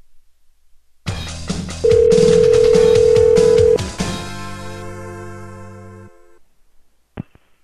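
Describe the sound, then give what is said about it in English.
A telephone call rings through to a hotel's direct-dial line: one steady ringback tone of about two seconds sits among other line tones and noise. Fainter tones trail off afterward, and a short click follows near the end. “at a hotel that has a number where you can direct dial to rooms, so let's see if that works.”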